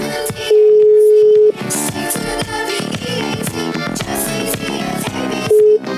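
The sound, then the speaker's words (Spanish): A phone call is being dialed, and its steady ringing tone sounds first as one long beep, then as a short one near the end, heard over loud, busy music. “vamos a llamar al aire para que la gente nos crea que esto no está arreglado, esto es real. Esto es verídico. Estamos llamando al aire, compadre.”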